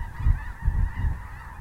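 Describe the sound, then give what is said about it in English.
Geese honking as they fly over North Dakota prairie grassland, a few short, nasal honks in quick succession, moderately loud and heard alone. “even the geese just fly right over”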